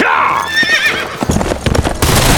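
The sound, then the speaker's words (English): A horse bursts through stable doors with a loud, high whinny that wavers in pitch. A jumble of thumping hoof impacts and clatter follows. “Horse hit the doors, bursting out into the open area between the stable and the back of Beaumont's house.”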